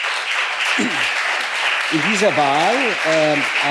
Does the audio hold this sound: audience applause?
yes